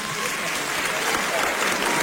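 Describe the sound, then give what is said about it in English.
Applause fills the whole clip as a dense, steady wash of clapping at an even, loud level, with no clear pauses. “Yes, clap for me.”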